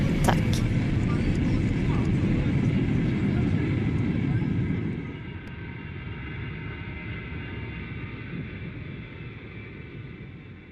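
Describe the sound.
An airliner taxiing in to a stop: a steady, broad engine roar that drops to a lower, quieter level about halfway through and holds there until the end.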